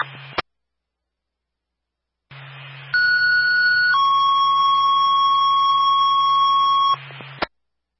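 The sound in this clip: A fire dispatch alarm alerting Engine 3 opens with a brief burst and then a pause over low hum. A steady electronic tone follows, drops to a lower pitch, holds for several seconds and cuts off.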